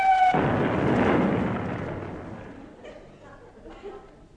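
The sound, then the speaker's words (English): A long-range artillery gun fires during practice: one heavy, booming blast opens loudly, then rolls into a long rumbling decay that fades slowly, with a fainter thud near the end. “What was that? Oh, didn't I tell you? It's the long-range artillery school practicing. Don't worry, they all pass over the camp and fall into the sea.”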